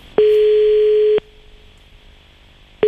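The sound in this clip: A telephone tone sounds as a steady, single-pitched hum for about a second, stops, then starts again at the very end, heard alone before a call is redialed.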